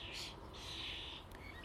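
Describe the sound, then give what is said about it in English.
Blackbirds, a resident hen and cock, fight while chasing off an intruder, giving a few faint, shrill, high-pitched calls in quick succession over a quiet background. “Oh, blackbird fight. Yep. Resident hen and resident cock together”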